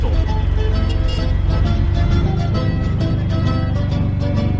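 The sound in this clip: A loud engine runs on a small vehicle that is worked with a right-hand throttle on the handlebar like a moped and has a brake pedal. It makes a steady, low, rapid putter whose tone drops slightly partway through.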